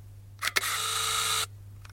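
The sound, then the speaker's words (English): A camera shutter fires under a duvet: two sharp clicks, then about a second of steady mechanical whirring that stops abruptly. The sound is heard alone and is fairly faint. “Okay, here's shutter number two. Here we go. There we go. Let's see what happens.”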